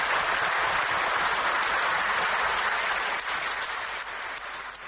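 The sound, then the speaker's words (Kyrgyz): Delegates at an Ak Jol People's Party congress in Kyrgyzstan break into thunderous applause, a dense, continuous wall of clapping that holds steady for several seconds before tapering slightly at the end. “Мурат Жетимишбаевдин сунушу делегаттардын дүркүрөгөн кол чабуусу менен коштолду.”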